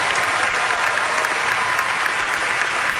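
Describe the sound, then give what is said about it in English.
Dense, steady applause from an oncology conference audience as results are revealed showing a new drug extended the lives of pancreatic cancer patients; continuous loud clapping throughout, no voices. “That is the sound of an oncology conference.”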